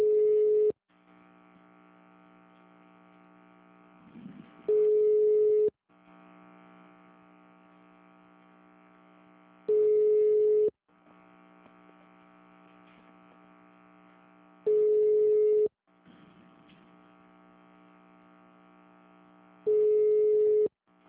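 Telephone line tones on a call to a bank branch: five steady, loud tone bursts arrive about every five seconds, with a buzzing, harmonic-rich line hum filling the gaps between them.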